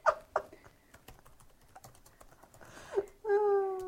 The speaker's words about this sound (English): Okay, I've typed in all caps, William Shatner is hot.